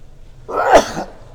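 One sharp, sudden sneeze bursts out on its own, loud against a quiet background.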